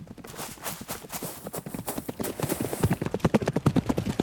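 Horses gallop as riders approach in a dramatised chase: many rapid, rhythmic hoofbeats that grow louder and more distinct toward the end.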